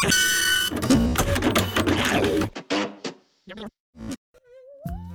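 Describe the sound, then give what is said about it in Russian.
Printer running in short mechanical bursts after a dense, loud opening stretch, with several separate whirring and clattering pulses broken by brief gaps. “Отпечатано на 4D принтере с негатива окружающей действительности.”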